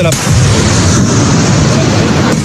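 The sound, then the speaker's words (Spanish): A 105 mm AMX tank cannon fires during a military operation against clandestine mine entrances in a mountain: a loud, heavy blast followed by a sustained, deep rumbling roar that fills the whole clip. “Primero dieron la orden de morteros. Después, los tanques AMX de 105 milímetros.”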